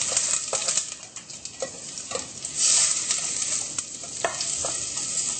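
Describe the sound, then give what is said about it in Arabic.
Onions frying and being stirred in olive oil, a steady bright sizzle running throughout with many small scraping clicks from the stirring utensil against the pan. “وبنقلب البصل ليشقر شوي ولا تروح ميته.”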